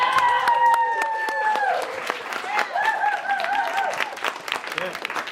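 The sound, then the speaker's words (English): An audience at a welcome session applauding themselves: dense, steady clapping throughout, with whoops and voices rising over it. “Okay, welcome everybody. Give yourselves a hand for being here today.”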